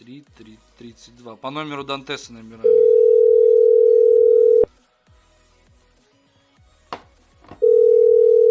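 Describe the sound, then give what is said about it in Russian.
A steady telephone dial tone sounds while a number is being called. A voice speaks briefly first, then the flat tone holds for about two seconds, cuts off with a click into near silence, and returns near the end. “Дантес скинул номер, теперь правильный, вот сейчас на него наберу.”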